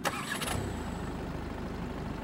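A car engine starts on a long driveway lined with deep snow drifts. A short, harsh crank burst is followed by a steady, low, pulsing idle rumble.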